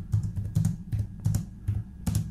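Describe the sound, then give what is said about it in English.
Typing on a computer keyboard: irregular bursts of clattering keystrokes with short pauses between them, alone over a low steady hum. “that was him typing on the keyboard. He was typing”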